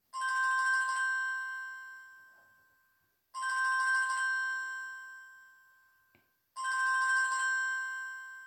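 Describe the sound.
Telephone ringing after a number is dialed: three identical electronic ring tones, each a bright harmonic burst fading into a long steady hum, evenly spaced and fairly faint, with no voices.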